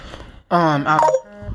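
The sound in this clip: Phone tones go off right beside a microphone: a loud, short electronic melodic burst with shifting pitch lasting under a second, followed by a fainter trailing tone.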